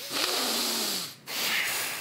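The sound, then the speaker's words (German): Breathing out through the nose in a breathing exercise with the belly tensed: a faint, steady, airy hiss lasting about a second, a short break, then another similar nasal rush of air. “Dann kurz einatmen. Dann ausatmen. Genau, am besten in der Nase. Mach's nochmal.”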